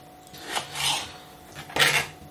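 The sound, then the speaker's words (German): A knife cuts gherkins in a few quick, rasping strokes that scrape and clack. The strokes come in two brief clusters separated by a short pause. “Wenn die Gürkchen jetzt hier drin sind, dann schneide ich jetzt noch schnell weiter.”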